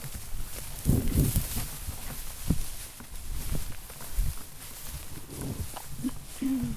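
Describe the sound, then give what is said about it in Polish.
Footsteps swish through very tall grass off the path. The soft, irregular rustling steps and brushing stalks stay faint throughout. “Tutaj już idziemy przez taką bardzo wysoką trawę. Właściwie bezdrożem.”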